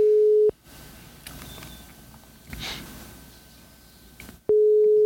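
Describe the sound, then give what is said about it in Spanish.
Ringback tone of an outgoing telephone call: a steady low beep cuts off, then a long stretch of faint hiss and soft rustling follows before a second identical beep starts. The tone is loud and steady and plays alone, with no talk. “A ver. Está llamando.”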